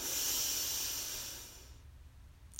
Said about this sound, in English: So breathe in and out. Let's do that one more time. Breathe in